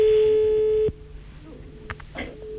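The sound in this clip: A telephone call tone sounds as a call is placed, one steady, loud tone holding for under a second, then cutting off abruptly into quiet background with a few faint clicks.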